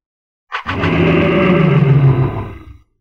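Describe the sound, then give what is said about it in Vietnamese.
A giant golden-furred ape roars fiercely: a single loud, deep, rough roar that starts abruptly, holds for about two seconds and then tapers off. “lại lần nữa hóa thành thân kim mao cự viên, gầm lên mãnh liệt.”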